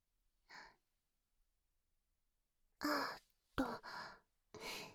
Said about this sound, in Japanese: 今日は思いっきりリラックスしてほしいから、まずは深呼吸しよっか。